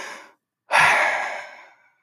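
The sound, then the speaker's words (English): A person takes a deep breath: a short breath fades out, then after a brief pause comes one long, loud, airy breath that swells quickly and tapers away over about a second, with no talking. “the best thing that we can do is just take a deep breath”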